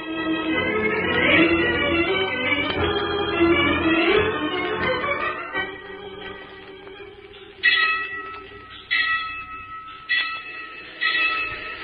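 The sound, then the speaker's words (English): A train approaches and passes, its rumble mixed with a steady tonal backdrop at first. The second half brings a few loud, sharp whistle blasts at irregular intervals. “There's a train coming”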